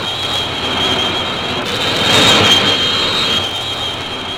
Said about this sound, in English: Jets are ready. They're signaling for me to get aboard. Okay. This is W.W. Chaplin. We'll be checking in within the next few minutes, broadcasting from the air. Here we go.